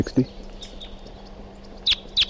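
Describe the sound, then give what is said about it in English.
Short, high-pitched bird chirps: two sharp, clear calls stand out near the end, with fainter thin notes earlier over a low, steady background hum. “Recording bird 362 here.”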